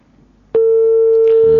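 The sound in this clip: Telephone busy tone on a dropped call-in line: a loud, steady single-pitched tone that starts abruptly after a quiet moment and holds to the end.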